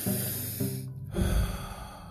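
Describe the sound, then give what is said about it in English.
A deliberate, conscious breath, pushed through the nose and mouth with an airy, snorting rush. The breath pauses briefly midway, then a heavier, lower surge of air follows and fades out. “that's called conscious breathing. And it's been around for a long time.”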